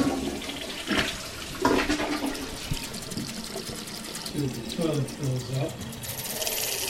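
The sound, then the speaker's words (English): A toilet in a Bennington home flushes and its tank refills, a steady wash of rushing, gurgling water that runs the whole time while a voice talks over it. “And the toilet fills up. There we go. So, you know, you can see the jump.”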